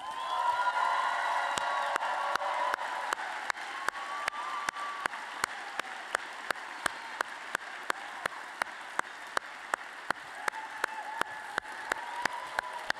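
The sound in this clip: Audience applause and cheering for the fifth-place contest winner welcomed to the stage: steady, dense clapping with a few whoops early on, sharp individual claps standing out at a regular pulse, holding a fairly even level throughout.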